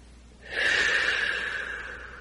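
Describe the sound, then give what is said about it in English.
A single long, deep breath drawn in during a guided meditation, a breathy airy rush that starts abruptly and slowly tapers off, heard alone with no talk. “We take a deep breath and go deeper.”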